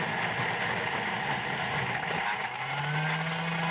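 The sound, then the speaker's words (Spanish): A Thermomix food processor crushes strawberries at 10,000 rpm, a loud, steady high-speed whirring roar that holds constant without pause. “Y pongo... Play. Claro, son 15 segundos a 10.000 revoluciones, como decía ahí. Exactamente. Sí. Lo que va a hacer ahora es triturar las frutillas.”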